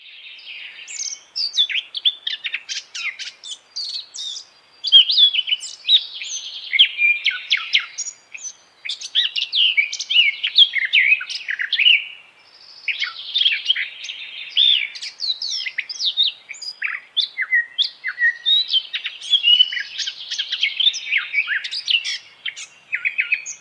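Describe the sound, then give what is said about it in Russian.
A Eurasian blackcap sings: bright, fast, warbling phrases of high chirps and whistles, repeated again and again with short pauses between bursts. The song carries on loud and alone across the whole stretch. “Славка Черноголовка.”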